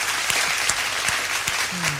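Applause forms a dense, continuous patter of clapping, fairly loud and even, with a few sharper individual claps standing out.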